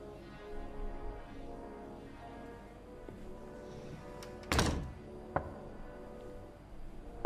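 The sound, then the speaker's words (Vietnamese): Knocking from inside a coffin: a couple of dull thuds, the first heavier and the second a sharp single knock, over a steady tonal background. “trong quan tài đột nhiên phát sinh ra tiếng gõ.”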